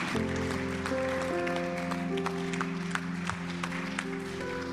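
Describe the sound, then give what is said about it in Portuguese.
A church audience applauds, a faint, continuous wash of clapping hands under steady sustained musical tones that carry on underneath throughout. “Put your hands together for the Lord. Palmas para o Senhor.”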